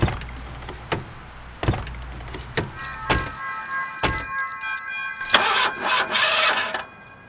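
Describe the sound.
An old car's engine cranks but will not catch, out of gas despite a recent tune-up: a low, churning rumble with several sharp knocks that dies out, followed by thinner whirring tones.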